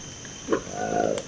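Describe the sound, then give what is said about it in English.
Call of a newly discovered monkey species from the Democratic Republic of the Congo: a short croaking burst followed by a longer, low, drawn-out rasping call, moderately loud with no voices. “This is the remarkable sound of a newly discovered monkey in the Democratic Republic of the Congo. It's called the Likweli monkey.”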